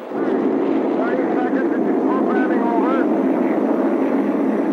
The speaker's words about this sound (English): Mariner 1 blasted off the launch pad on July 22, 1962. At first, all went according to plan as the Atlas rocket accelerated through Mach 1, 2, and 3.